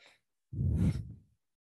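A deep, slow breath during a guided yoga stretch, heard as one soft, breathy whoosh lasting under a second, quiet and alone.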